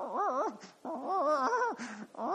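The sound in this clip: A human voice imitates a leashed dog whimpering at a squirrel, three high, quivering whines with a wavering pitch and short breaks between them.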